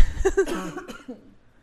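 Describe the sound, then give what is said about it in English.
Several dry, harsh human coughs in quick succession, loudest at the start and then tapering off to quiet. “Sorry, I feel like I have to cough again.”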